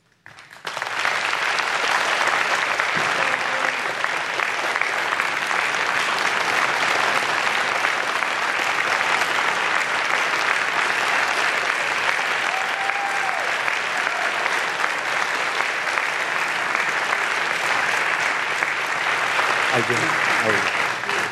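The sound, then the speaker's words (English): Sustained applause from the audience in the hall at the final presidential debate, welcoming the two candidates to the stage: a dense, steady roar of clapping that holds at an even loudness for about twenty seconds. “The audience here in the hall has promised to remain silent. No cheers, boos, or other interruptions, except right now, as we welcome to the stage former Vice President Joe Biden and President Donald J. Trump.”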